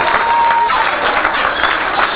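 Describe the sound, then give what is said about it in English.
Audience applause during a lesson on buying wholesale and selling at a profit: dense, steady clapping that holds at an even level for the whole clip without a break. “Give them a round of applause, very good.”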